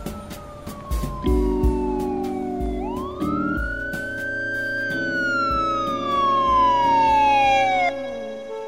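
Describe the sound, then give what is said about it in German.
Police patrol car siren wailing loudly and on its own. A long tone slides downward, then sweeps up and slowly falls again over a steady low engine hum. “Sie sollten mich vorwarnen, ehe Sie mich mit einem Streifenwagen in Ihr Büro bringen lassen”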